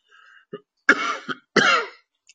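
Harsh coughs from a person with an ongoing cough: a few rough bursts of varying length and loudness, with short pauses between them.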